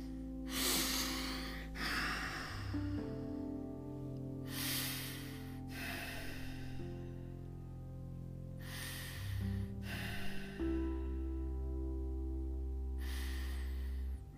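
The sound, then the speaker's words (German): Slow, deep breathing during a stretching exercise: several loud, airy inhales and exhales, mostly in pairs and spaced by pauses, over a steady sustained musical drone. “Noch vier Atemzüge an der Stelle.”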